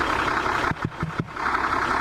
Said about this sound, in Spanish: Un relojito. Ese motor te lleva a Ushuaia y de vuelta.